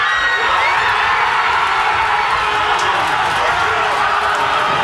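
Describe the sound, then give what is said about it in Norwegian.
A crowd cheers and shouts in a local pub in Hammerfest, where football fans in Norway jerseys and bucket hats celebrate a win over Ivory Coast. The dense, loud roar of voices stays steady and unbroken throughout. “Ja, det var både allsang, roing og full jubel i Hammerfest.”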